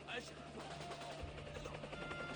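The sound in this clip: A helicopter drones steadily at a low level with a faint rhythmic beat, while muffled voices sound over it.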